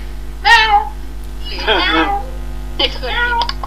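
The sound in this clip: A cat meows three times, each a loud harmonic call separated by short pauses, over a steady low electrical hum.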